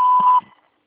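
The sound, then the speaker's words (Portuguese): A voicemail beep: one steady, clean electronic tone that holds for under half a second and then cuts off, with nothing else around it. “Por favor, deixe sua mensagem após o sinal.”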